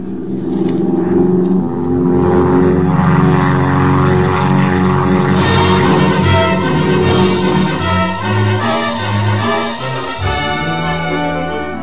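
A propeller airplane drones as it descends to land in rough country. Its engine roar stays loud and continuous, with shifting tones across the whole stretch.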